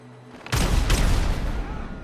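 Pistol gunshots in a video game: a sudden loud, booming blast followed closely by a second shot, both trailing off into a long rumbling decay.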